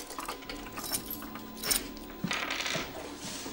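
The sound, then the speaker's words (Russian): Keys being picked up, giving a few light metallic clinks and a brief jangle over a quiet background. “Адам Вениаминович берет ключи, выходит.”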